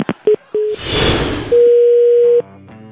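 Telephone line tones after a dropped call: a few short, clipped beeps and a brief burst of hiss, then one longer, steady tone. The tones are loud and clean, with no talk.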